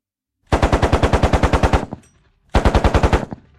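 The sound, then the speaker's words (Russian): Two rapid bursts of automatic fire from a tank's gun, fired as a test shot. A long, loud burst of evenly spaced reports is followed after a short pause by a shorter one, with no voices. “«Проверочный выстрел!» — предупредил я в микрофон.”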